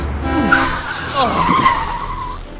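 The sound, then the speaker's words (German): A Mercedes car accelerates hard with loud screeching tires whose shrill, wavering squeal is set over a low engine rumble. “Der Mercedes beschleunigt auch. Und sie holen immer mehr auf.”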